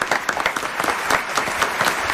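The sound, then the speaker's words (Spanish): Theater audience applauding a young woman: dense, steady clapping from many hands throughout, with no voices standing out. “Un aplauso para esta joven.”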